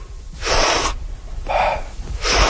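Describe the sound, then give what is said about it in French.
Forceful breaths in a recovery-breathing exercise, with an active deep inhale and a passive exhale, come as three loud, breathy rushes of air separated by short pauses. “Ça va être une grande inspiration, très actif, et passif en expiration.”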